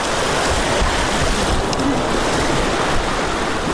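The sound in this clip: Rushing floodwater after overnight rains in a village in Uruzgan province, Afghanistan, pouring past the fronts of homes: a loud, continuous roar of churning water mixed with wind buffeting the microphone, steady throughout with no pauses or voices.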